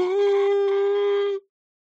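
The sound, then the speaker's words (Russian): A grieving woman howls like a wolf over a dead body, face raised to the sky: one long, steady, loud wail at an unchanging pitch that holds for over a second and then cuts off into silence. “Она по-волчьи завыла, задрав лицо к небу.”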